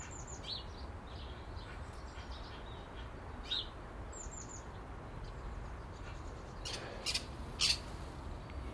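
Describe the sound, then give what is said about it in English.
Faint scattered chirps and harsh squawks from magpies nesting in a big blue Land Rover, with starlings circling overhead, over a steady low background rumble, with a brief louder cluster of calls near the end. “I think the magpies are nesting in the Big Blue Landy again. Just saw two swoop in about midway up.”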